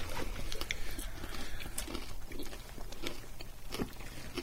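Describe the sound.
Two men munch a puffed rice snack, producing many faint, crisp crunches and chewing clicks in an irregular, continuous pattern.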